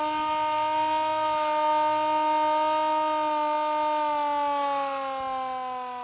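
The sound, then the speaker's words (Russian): Air raid siren sounding on a Sunday at an outdoor military equipment exhibition marking a liberation anniversary: a loud, steady, harmonic wail whose pitch slowly sinks and whose level tapers near the end, with no voices. “Это был звук воздушной тревоги, который прозвучал в воскресенье на Литенской плане.”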